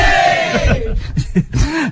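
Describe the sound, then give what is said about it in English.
School crowd cheering loudly at the mention of Perrins School, many voices shouting at once, the sound breaking into uneven bursts of shouts in the second half. “And every time we mention Perrins School, we are going to get a bit of a cheer.”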